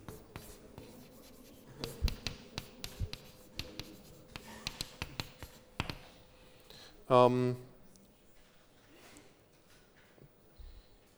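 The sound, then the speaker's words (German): Scratchy strokes of writing on a board come in many short, uneven bursts of varying loudness, with brief pauses between them. “Ich schreibe hier einfach mal hin Pauli-Prinzip.”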